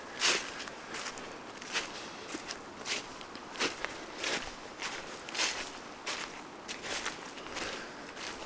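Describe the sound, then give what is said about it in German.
Footsteps crunch along a forest path in a steady walking rhythm. The many soft, even steps run through the whole stretch at a low, quiet level. “wo ich durch den Wald gehe und dir diesen Podcast einspreche”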